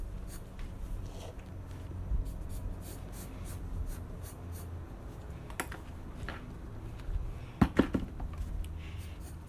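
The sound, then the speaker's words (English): Pencil drawing on paper: soft, irregular scratching strokes, faint throughout, with a few sharper scrapes near the end. “Wait, did I make it too dark? Yeah, it's okay. I need to draw the hands.”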